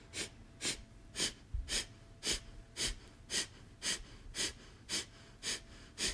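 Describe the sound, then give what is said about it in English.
A person does a breathing exercise of sharp, forceful exhales at a quick, even pace, with a quiet passive inhale between each one and no talk. “the inhale is neutral, so it's not an active, forceful inhale as well. It's just a passive inhale and forceful exhale. And it goes at about this pace.”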